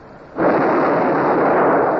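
Cannon fire from a sailing warship's guns during a naval attack: one abrupt, loud blast that swells into a sustained, heavy roar and stays loud to the end.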